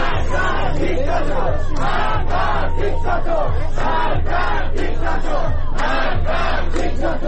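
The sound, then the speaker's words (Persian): Crowd chanting anti-government slogans in unison at a mourning ceremony in Iran for young people killed by security forces. The loud, rhythmic phrases are repeated again and again, with a steady low rumble underneath. “در جریان مراسم سوگواری برای مهران سماک، حامد سلحشور و سینا قنبری و مراسم تولد محمد حسین ترکمان، همگی از جوانان کشته شده به دست نیروهای امنیتی، علیه جمهوری اسلامی و علی خامنه‌ای شعار سر دادند.”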